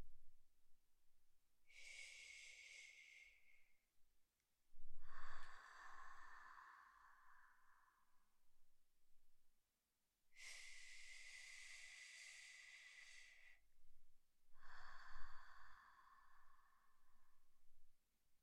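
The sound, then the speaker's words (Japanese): Slow, deliberate breathing with two full cycles of drawn-in and pushed-out air, each breath a soft, airy hiss lasting a few seconds, faint against near silence. “ゆっくり吸って、ゆっくり吐くから。”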